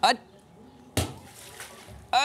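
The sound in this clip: A splash as someone jumps into water, one sharp loud burst followed by a brief wash of sloshing, with voices calling out at the start and end.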